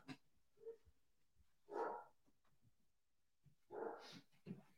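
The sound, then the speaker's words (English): Dogs bark as someone comes to the door, a few faint, muffled barks and yips in separate bursts with quiet gaps between them. “There, that is solo live streaming 101 right there, is have your dogs around and then someone comes to the door while you're live streaming.”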